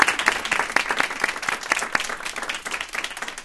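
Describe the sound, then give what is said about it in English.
Audience applause during a word puzzle quiz: a dense, steady patter of many hands clapping that carries through the whole stretch and eases slightly toward the end. “Guys, give yourself a hand. Give yourself a hand.”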